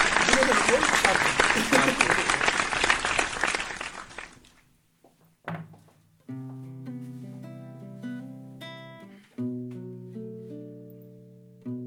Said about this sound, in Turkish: O zaman alkış gönderiyorum.